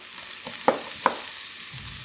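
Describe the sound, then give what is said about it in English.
Garlic sizzles as it drops into a hot oiled pan beside onions and peppers, giving a steady, soft, high-pitched hiss broken by a couple of sharp little pops. “Oh, I love the smell of garlic when it hits a hot oiled pan.”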